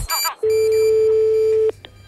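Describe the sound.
A telephone dialing a call during a radio call-in segment: a brief burst of dialing tones, then one long, steady mid-pitched tone that ends in a sharp click.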